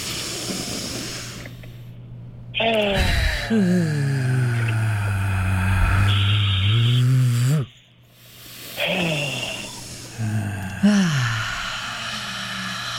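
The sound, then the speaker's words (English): Deep breaths are drawn in through the nose as long, breathy hissing inhales over a sustained tonal background. The inhales are split by short quiet gaps. “Let's get three of those good deep breaths in us. In 3, 2, 1, all the way in through the nose.”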